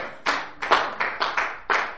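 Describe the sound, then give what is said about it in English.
A few scattered handclaps from a church audience during a sermon, sharp separate slaps spaced irregularly rather than a full round of applause, fairly soft overall. “I didn't write the book. You know, I mean, I know you're applauding for Him.”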